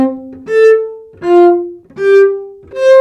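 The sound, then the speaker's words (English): Cello playing four slow bowed notes in a mid register, each swelling up and easing off in turn with a rich, harmonic tone, heard alone. “Here's the sound of a cello, for example.”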